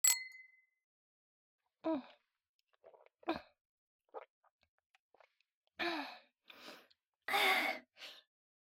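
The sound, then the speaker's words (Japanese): A single bright glass ding rings out at the start as glasses touch in a toast, its clear tone decaying quickly. Soft breathy sighs and gasps follow in the silence afterward. “じゃあ魔法の薬をグラスに注いで、乾杯。”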